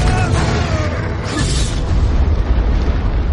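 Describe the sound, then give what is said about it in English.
A dragon's deep booming roar, mistaken for an earthquake, rumbles as a loud, continuous low roar that brightens briefly in the middle and then carries on heavily. “it's an earthquake. That, my lad, was a dragon.”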